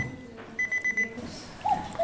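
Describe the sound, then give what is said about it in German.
A digital alarm clock with adjustable ringtones beeps in a quick run of short, high electronic pulses, followed by a few softer, irregular tones. “Im Verkauf bietet Grasser aber nur noch Digitalwecker an, mit verstellbaren Klingeltönen. Also das ist der Klassiker.”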